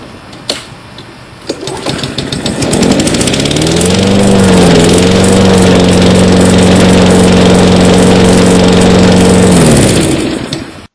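Small petrol engine started with the choke set on the carburetor: a couple of sharp knocks, then the motor catches, climbs in pitch and settles into a loud, steady buzzing drone before cutting off at the end.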